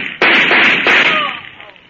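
Gunshots fired during a confrontation, heard as a few sharp, noisy blasts with sudden onsets, each followed by a lingering rough hiss that slowly fades.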